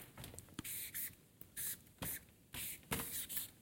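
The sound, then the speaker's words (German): Writing a word by hand produces a faint run of short, scratchy strokes in an uneven rhythm, each stroke a quick hiss with small pauses between. “und ich schreibe es jetzt mal in die Mitte”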